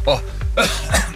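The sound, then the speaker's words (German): Someone coughs after choking on something, three short, harsh throat-clearing bursts in quick succession. “Ich habe mich verschluckt. Habe ich gar nicht gemerkt. Entschuldigung.”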